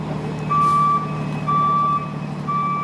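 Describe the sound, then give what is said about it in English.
Reversing beeps from dump trucks clearing debris after a deadly fire and building collapse: three long, evenly spaced, high electronic tones ring over a steady low engine rumble. “The sound you're hearing is of dump trucks on the scene to help clear all that debris so search teams can look for more of the missing.”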